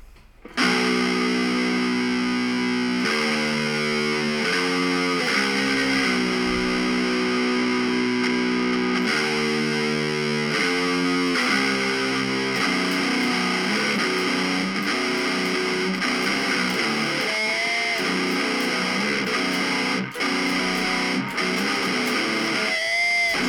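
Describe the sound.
An electric guitar's sixth string, tuned to drop B, plays heavy notes through a distortion effect in a long, loud, sustained riff whose pitch shifts between held notes, with no voices.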